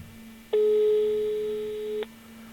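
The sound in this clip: Ringing tone of an unanswered phone call, played with the volume turned up: one steady, even tone of about a second and a half over a low, constant hum.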